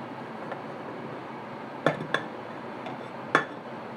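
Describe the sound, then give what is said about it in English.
A pan is moved off the heat on a stove, making three short, sharp metallic clinks and a couple of fainter knocks against otherwise quiet background noise. “We need to move the pan off the heat for a little bit, I think, because I'm not quite ready to do the next bit.”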